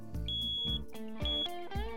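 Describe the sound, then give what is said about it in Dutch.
A home smoke detector beeping because its battery is low, giving a few shrill high-pitched beeps in a repeating pattern that sound fairly faint and sit alone without talk. “sorry, dat is mijn rookmelder. Die gaat om het half uur af. En ik heb een batterij die is waarschijnlijk leeg.”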